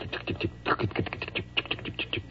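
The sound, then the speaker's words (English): A voice imitating railroad telegraph sounders: a fast, irregular stream of many dry clicks and clacks in quick succession at moderate loudness. “Have you ever heard these sounders going? They just go...”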